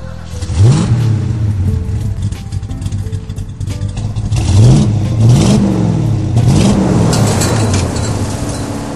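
A chromed Norton motorcycle engine revs hard in a few separate bursts, each rising in pitch and then dropping back to a steady, throaty idle rumble between them.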